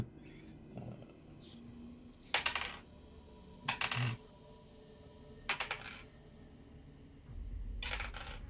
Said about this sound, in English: There is a save, so rolling a lot of these dice, I can't find all my d10.